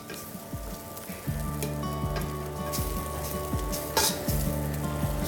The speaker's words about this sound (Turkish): Dolayısıyla 2 kaşık tereyağı yeterli. Şöyle hafif tereyağımızı eritelim.